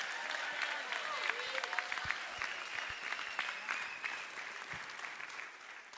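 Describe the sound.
A church audience applauds during a Sunday service, a dense, steady clatter of clapping mixed with scattered cheers and voices. It holds for about six seconds and tapers slightly at the end.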